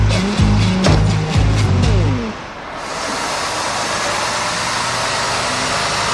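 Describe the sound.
A car is driven fast and recklessly: the engine climbs in several rising surges, then gives way to a steady, loud rushing roar of speed.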